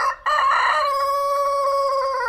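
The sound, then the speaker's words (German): A rooster crows at sunrise: one long, loud crow with a rich harmonic tone that holds steady and trails off slightly at the end, heard alone. “Mit dem Sonnenaufgang hört man den Hahn krähen.”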